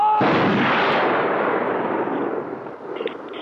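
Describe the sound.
A firing squad's rifle volley from an execution scene in a film: one sharp, loud, simultaneous crack at the start, followed by a long rumbling decay that slowly dies away.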